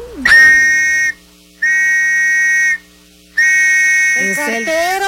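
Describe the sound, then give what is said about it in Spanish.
A postman's whistle blown in three long, steady, shrill blasts separated by short gaps, each held at an even pitch, with a voice starting up near the end. “Era efectivamente el silbato de un cartero.”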